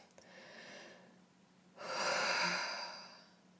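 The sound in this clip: A person takes a deep breath, heard as two soft, airy breath sounds, the second louder and longer than the first, with no talking.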